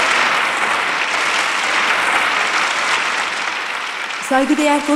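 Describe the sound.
Concert applause for a Turkish folk minstrel, a loud, dense roar of clapping that eases slightly over time before a voice starts speaking in the last moments.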